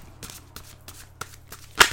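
Tarot cards are shuffled and drawn, making soft, papery riffles and light taps that end in a louder, brisk flutter of cards, with no voices.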